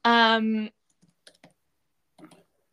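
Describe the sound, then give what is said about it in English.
Typing on a computer keyboard into a shared Google Doc: a handful of soft, scattered key clicks, preceded by a brief voiced tone. “I'm just going to write in the Google Docs that we've got shared and opened.”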